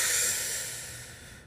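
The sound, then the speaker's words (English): A single long, airy deep breath, its hissy rush starting loud and fading steadily over about a second and a half, with no talk. “I need to calm down. I need to take a deep breath.”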